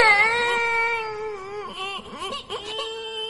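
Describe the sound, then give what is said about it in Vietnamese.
A young boy, a novice at a Buddhist temple, sobs while hugging a pillow in his room. His high, wavering wail has shaky pitch bends and brief catches of breath, and it continues throughout without any speech. “ngồi ôm gối khóc thút thít. Tức chú Hưng quá sức, khóc chưa hả cơn bỗng thấy thầy trụ trì bước vào phòng. Chú khóc hòa ra.”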